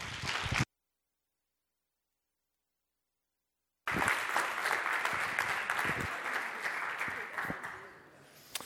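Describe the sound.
An audience at a church gathering applauds to welcome a speaker: a short burst of clapping, a silent gap, then steady, dense applause that fades toward the end.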